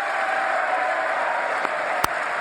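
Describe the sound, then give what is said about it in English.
Sustained applause during a State of the Union address, an even wash of clapping at fairly loud level, broken by a couple of sharp clicks near the end. “See, he's clapping for himself.”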